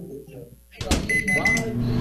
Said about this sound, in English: Stop using the microwave.